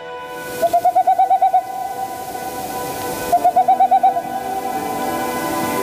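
Dove cooing used as a sound effect in an advertisement, heard as two bursts of rapid, evenly pulsed hooting coos, about eight notes then about six, over a faint steady tone.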